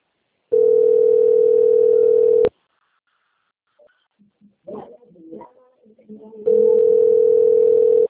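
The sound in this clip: Ringback tone of an outgoing phone call: two long, steady, loud bursts of a single mid-pitched tone separated by a long pause, with faint murmuring voices during the gap.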